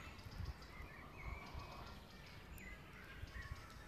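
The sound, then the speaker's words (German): Birds chirp under old oak trees, faint scattered tweets and short calls over a steady low background rumble. “Und hier, unter den alten Eichenbäumen, mit dem Zwitschern der Vögel”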